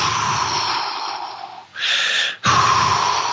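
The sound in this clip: A breathing exercise focused on the exhale: loud, forceful breaths, the first long and rushing, then a short, tighter breath with a tonal edge, then another strong, gusty breath, with no talking.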